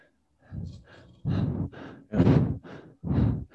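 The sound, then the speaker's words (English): Quick breathing in and out: a rapid, regular run of breaths that alternate between stronger and softer puffs, with no talk over them. “Like my breath's pretty quick. I don't know if you can hear this, just to give you an example.”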